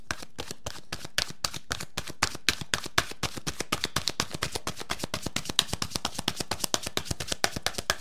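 Oracle cards are shuffled and drawn as a long, quick run of many soft, evenly spaced card ticks and flaps. The sound is faint and continuous throughout.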